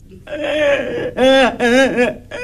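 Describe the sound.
A child crying in loud, wavering sobs, with a few wailing bursts of unsteady pitch broken by short breaths.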